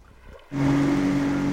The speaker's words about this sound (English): As the boat speeds, Maggie watches a whale surface.